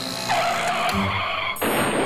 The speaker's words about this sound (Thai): เห็นน้องๆปั่นจักรยานลุยโคลนดูง่ายๆสบายๆเลยขอยืมมาซิ่งสักหน่อยครับ